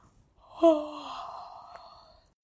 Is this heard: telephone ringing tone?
no